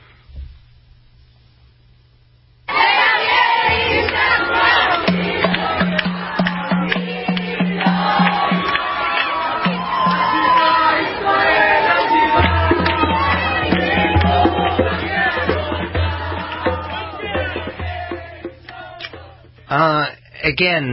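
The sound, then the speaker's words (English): A crowd of Israelis on the ground at the airport gives returning soldiers an emotional welcome. Loud, sustained massed cheering and shouting voices burst in after a brief quiet opening and stay dense, dipping only briefly near the end. “And they were received an emotional welcome from Israelis on the ground. It sounded like this, clip 12.”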